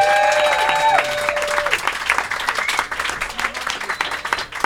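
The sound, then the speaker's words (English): Loud, sustained audience applause for a band after its performance. Dense clapping stays strong throughout and thins slightly toward the end. “So congratulations, guys. Give it up for Kinky, everybody. Give it up for Kinky!”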